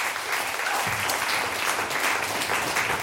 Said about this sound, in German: Ein Applaus für euch und für mich und fürs ganze Team.